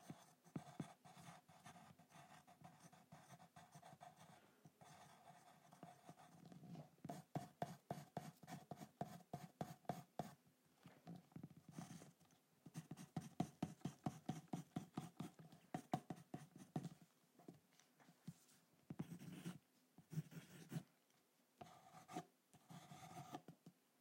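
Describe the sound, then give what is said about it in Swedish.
Drawing on paper: quiet, dry scratching strokes in quick irregular bursts, many short rubbing passes that keep going with brief pauses and no talk. “så tar jag bara och ritar lite.”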